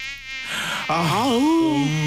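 Mosquitoes whine around a smelly pit toilet in summer, a thin, high, harmonic buzz that starts faint, then swells loud and wavers up and down in pitch with no talking.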